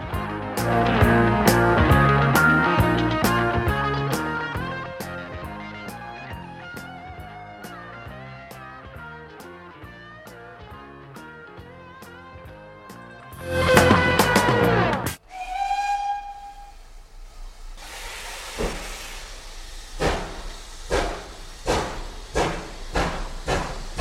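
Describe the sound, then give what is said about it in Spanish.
Steam train whistle at departure: after steady music, a loud burst of hissing steam leads into one sustained whistle tone, followed by a series of rhythmic steam chuffs. “vamos a subir el tren que va a pitar su salida.”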